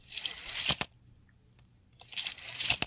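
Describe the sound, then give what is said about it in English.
A metal tape measure retracts twice, each a dry rasping slide of the blade that ends in a sharp metallic click as the end piece strikes the case, with a short quiet gap between the two. “It's a tape measure sliding in and the metal piece hitting the”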